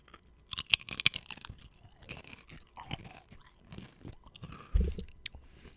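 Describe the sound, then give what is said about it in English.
Crunching and chewing of chips being eaten, with many sharp, crisp crunches in quick bursts early on, then softer, irregular chewing and a dull thump near the end, with no talk. “let's go back to our ASMR segment of eating chips, all right?”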